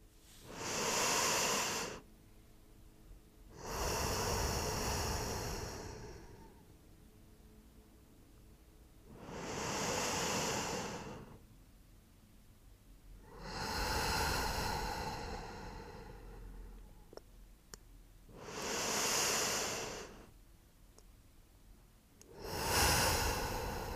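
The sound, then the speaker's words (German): Three slow, deep breaths during a guided meditation, each an audible inhale and a long exhale. The six breathy swells come in an even, unhurried rhythm, with no talking. “Und jetzt nimm noch mal 3 tiefe Atemzüge.”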